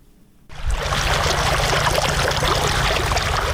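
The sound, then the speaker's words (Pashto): Steady gush of water pumped from deep wells by solar-powered machines on farmland in Sayed Abad district, Maidan Wardak. It starts abruptly after a brief quiet and then runs loud and constant over a low hum. “دا د میدان وردګو ولایت په سید آباد ولسوالۍ کې د ژورو څاګانو اوبه دي چې بزګران یې د لمریزې هندارو او ماشینونو په مرسته راپورته کوي.”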